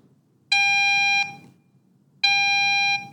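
Fire alarm tone from a phone app demo: two loud, steady, shrill electronic blasts, each lasting under a second, separated by a short pause.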